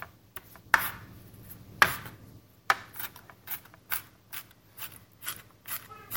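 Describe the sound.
A knife minces sausage for an orzotto, making many sharp, irregular chopping knocks. Some strikes land harder than others, with brief quiet gaps between them.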